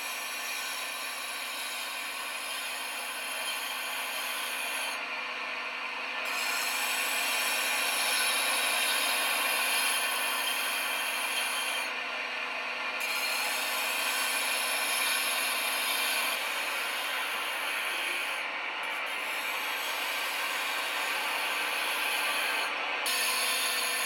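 Edo kiriko cut glass, blue-tinted Tokyo work, grinds against a spinning whetstone wheel in a steady, dense hiss that runs throughout, broken by brief dips at a few intervals as the glass is lifted or shifted.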